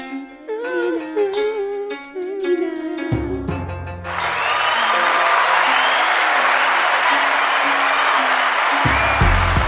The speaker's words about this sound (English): Yo, came in with a round of applause today.